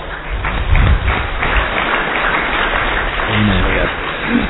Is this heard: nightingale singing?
no